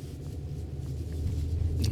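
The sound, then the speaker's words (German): Car driving into a yard: a steady low engine rumble that swells slightly toward the end, with no clear voices. “jetzt fahre ich hier auch schon auf den Hof”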